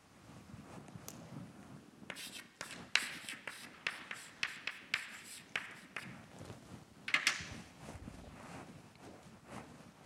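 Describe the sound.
A word is written on a board in many short, scratchy taps and strokes. The rhythm is irregular and the sound is fairly faint, with no talk over it.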